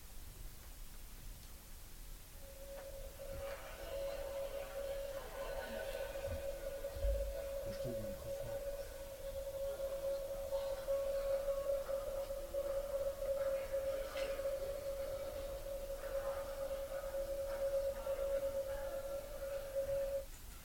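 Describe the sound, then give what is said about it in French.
A sound art piece transcribing the 551 names of God from the three monotheisms at 551 MHz: a long, steady mid-pitched tone sustained over a wash of hissing static, with faint shifting blips. “le premier bruit, alors il s'agit de la retranscription des 551 noms de Dieu dans les trois monothéismes à la fréquence de 551 MHz, donc c'est une pièce de Clémentine Beaugrand”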